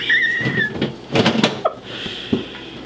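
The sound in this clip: A drawer is pulled open to fetch a lemon, producing a few scraping clatters and knocks of varying loudness, with a thin high tone briefly audible at the start.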